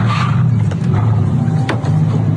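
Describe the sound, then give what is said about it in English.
Engine of a Mercedes car reversing through a car park: a steady, loud, low rumbling drone with no clear revs, holding constant throughout. “shows bystanders trying to stop the car from leaving, but it continues reversing through the car park”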